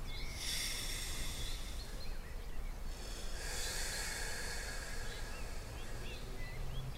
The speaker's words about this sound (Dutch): we gaan beginnen met gewoon alleen maar je ademt in, vier tellen.